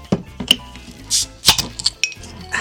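Beer glasses clinking together in a toast: several sharp, bright glass clinks in an uneven rhythm, with no talk over them.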